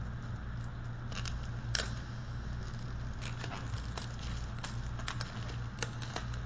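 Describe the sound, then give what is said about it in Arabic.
Crinkling and rustling of a plastic bag being opened, made up of scattered sharp crackles and snaps over a steady low hum. “افتح هذه، افتح الكيس هذا.”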